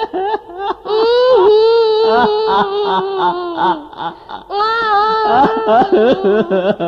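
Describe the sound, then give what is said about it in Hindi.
A child cries in loud, sustained wails with wavering pitch, broken by short gasping pauses and then rising again into further drawn-out sobbing cries. “अरे तुम रोने क्यों लगे?”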